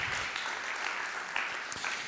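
Audience applause as a performer is called onto a stage, dense steady clapping from many hands with no pause, brief and even in loudness.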